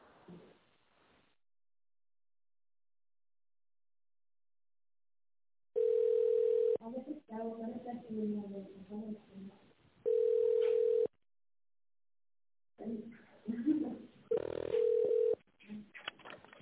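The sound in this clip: Steady telephone line tones play while a caller waits for a secretary to answer. A few long, level mid-pitched tones are separated by stretches of narrow-band phone voice and silence.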